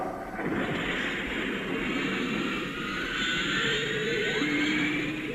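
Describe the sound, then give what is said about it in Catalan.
Jet-engine roar of a supersonic robot taking off, a loud, broad rushing blast that holds steady for several seconds and swells slightly toward the end. “Monstruo supersónico Jinrey, despega.”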